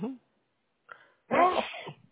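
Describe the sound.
One brief, explosive sneeze bursts out after a quiet pause and a faint breathy sound, loud and slightly drawn out at its tail.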